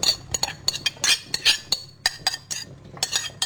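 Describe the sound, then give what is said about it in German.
Clinking of utensils against a bowl as cooked carrots are added to a pickle marinade, many quick bright clinks and scrapes in an uneven rhythm, with no talking. “Dann habe ich die Karotten. Die habe ich gekocht, wie du siehst. Die tun wir jetzt auch noch rein.”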